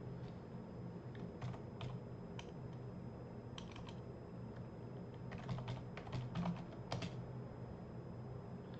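Typing on a computer keyboard, many quick, irregular key clicks tapping away, faint and steady over a low background hum with no voices.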